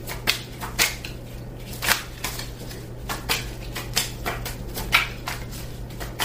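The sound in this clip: Tarot cards being shuffled and dealt, giving many light, sharp flicks and snaps at irregular intervals over a steady low hum.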